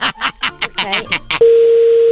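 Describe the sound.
A telephone dial tone sounds as a call is placed: a single steady mid-pitched hum that begins abruptly after a moment of talk and holds unbroken and level to the end.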